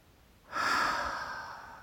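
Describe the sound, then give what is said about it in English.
A single long, deep breath taken during a guided relaxation exercise. It starts suddenly as a soft, airy rush and then slowly fades without stopping, with no voice heard. “So release that with every exhale. Breathe it in, gather it all up,”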